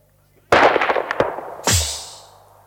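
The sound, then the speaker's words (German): Gunfire in a radio-drama duel in which the first shot misses: a sharp, loud report bursts out, a short crack follows, then another blast with a long, fading tail. “Das ging daneben, wenn ich mich nicht irre. Der Häuptling der Kiowas hat seinen ersten Schuss verfehlt.”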